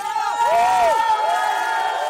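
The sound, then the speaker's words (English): Hundreds of people in Moscow cheer investigative reporter Ivan Golunov as he walks free. A loud crowd roar carries arching whoops and shouts. “a crowd of hundreds of people in Moscow cheered the investigative reporter Ivan Golunov as he walked free”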